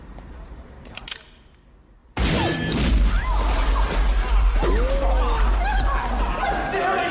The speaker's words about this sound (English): Hit bounces off the shield, ricochets.